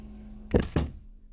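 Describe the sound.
Two quick, dull wooden thunks from a cupboard door, close together and fairly quiet, with only faint background hiss around them.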